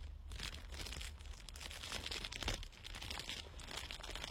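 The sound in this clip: Crinkling plastic as an envelope is wrapped snugly in a plastic covering; a continuous, irregular crackle and rustle runs throughout at moderate level, with no voices.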